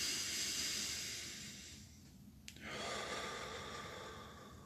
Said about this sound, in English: Have a wee breath. There's no B in the acronym, but just have a wee breathe anyway. Having a wee breathe is good.